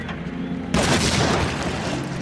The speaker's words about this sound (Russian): Один бандит бросает в подвал гранату.